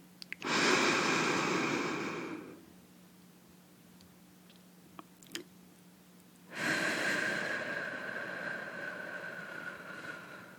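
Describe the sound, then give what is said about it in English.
Two long, deep inhalations, loud and breathy, are separated by a quiet pause holding a few faint clicks. A soft, steady low hum sits underneath throughout. “I want you to breathe more for me. Come on. Breathe in.”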